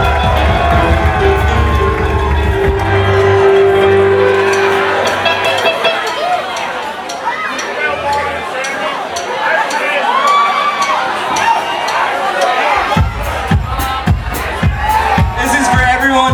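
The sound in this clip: A concert crowd cheers, shouts and whoops for a band, a loud continuous roar of voices, with a heavy beat kicking in near the end.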